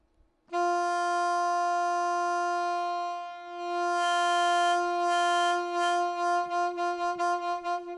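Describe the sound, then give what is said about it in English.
An electronic wind instrument with saxophone-style octave keys, set to a soprano saxophone voice, holds one steady reedy note for about seven seconds. The note dips and swells in volume, then pulses with vibrato toward the end. “So I think our first sound here is a soprano saxophone. And like I said, this device is laid out like a saxophone, and it has octave keys like a saxophone.”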